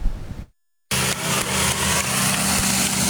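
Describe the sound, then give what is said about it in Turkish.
The engine of a self-built light aircraft used as an air taxi drones steadily. A brief full silence breaks it early on, then the buzzing, slightly pulsing hum returns and holds at an even, fairly loud level. “Amatör ve Sportif Havacılar Derneği Başkanı iş adamı Orhan Ünsal kendi geliştirdiği hava taksiyle köyüne uçtu.”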